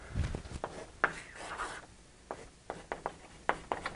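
Scratchy strokes of drawing on a board during a programming lecture: a string of short rubbing marks with brief pauses between them, moderately loud, with no talking.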